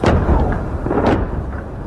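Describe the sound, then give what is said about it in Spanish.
Bombs explode in the southern suburbs of Beirut as loud, continuous low rumbling with heavy dull booms rolling through it. No voices are heard. “Enseguida, como escucháis, después de esos avisos han llegado las bombas a esa zona de la ciudad”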